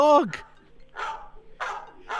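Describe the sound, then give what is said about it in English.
A dog barks in a few short, rough bursts spaced unevenly, after a brief high, falling yelp-like sound at the start. “now you see that my dog”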